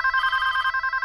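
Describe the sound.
A telephone ringing: a bright electronic ring with a fast, even pulsing warble. It sounds steady and fairly loud throughout, with no voices.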